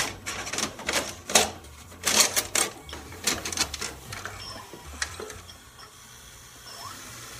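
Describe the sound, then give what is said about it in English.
A VHS cassette being pushed into a video recorder, making a quick run of mechanical clunks and ratchet-like clicks that is loud at first, then settles into a quieter mechanical whir. “That's putting a video into the video recorder. That's putting a VHS tape in.”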